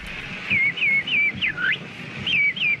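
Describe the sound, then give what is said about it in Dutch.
A person whistles an imitation of a finch call: a series of several bright, high chirps, each a quick falling note, with one longer swooping dip in the middle. The chirps come in two groups separated by a short pause. “Hier wordt een vinkje nagedaan.”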